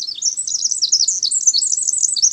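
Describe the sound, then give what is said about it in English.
A winter wren sings, a tiny songster pouring out a loud, continuous stream of rapid, high-pitched tumbling trills and twitters with no pauses, alone and without talk. “It might just be this tiny songster, the winter wren.”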